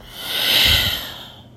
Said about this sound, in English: take another breath and really focus this time on the expiration, on the exhale. So, go ahead and breathe in and let it out.